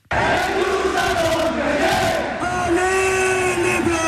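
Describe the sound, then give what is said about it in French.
Crowd cheering in the stands of the Coubertin arena: a loud, continuous roar of many voices with shouted and sung tones running through it, kept up without a break for the whole clip. “Le Chaudron pendant 2 heures. Pas de temps mort dans les tribunes, chaque point acclamé.”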